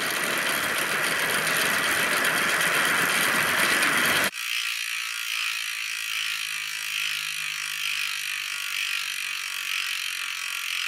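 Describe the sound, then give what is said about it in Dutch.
A prize wheel is spun for a number draw, its ratchet giving a dense, rapid, steady clicking rattle for about four seconds. The rattle stops abruptly, leaving a quieter mechanical hum. “Ga ik weer aan het wiel draaien”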